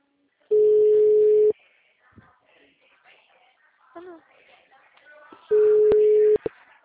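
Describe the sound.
A telephone calling tone plays as two loud, steady, low beeps, each about a second long, separated by a long gap in which people talk quietly.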